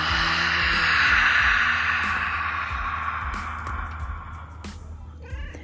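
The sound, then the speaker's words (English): A deep, audible exhale comes during a guided breathing exercise. It is a long, breathy rush of air that swells early, then slowly fades, with faint low thumps underneath. “Just that nice deep breath, and then we're going to let it go with that audible exhale.”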